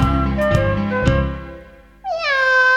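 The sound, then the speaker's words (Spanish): A cat meows in a kitchen, one drawn-out cry near the end whose pitch bends downward, preceded by sustained musical tones with a couple of sharp percussive taps. “Escuchemos la gata de Doña Emelina, que está maullando en la cocina.”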